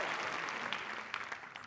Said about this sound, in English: will you give a huge round of applause, ladies and gentlemen, to Kerry Ward